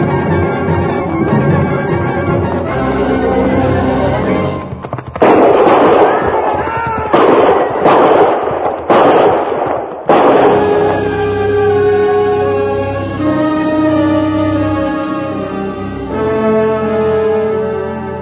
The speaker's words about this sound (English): I knew from the sound of that first volley what had happened.